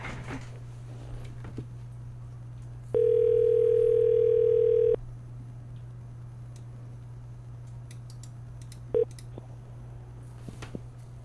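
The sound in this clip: A telephone call tone sounds while someone phones about a big wheel push mower: a steady pure tone held for about two seconds, then a single short beep later, over a faint constant hum.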